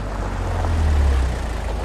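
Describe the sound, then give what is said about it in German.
Low, steady engine rumble of cars arriving at a meeting point to pick up refugees, a constant droning hum that swells slightly midway and carries on without a break. “Diesmal kommen die drei Autos.”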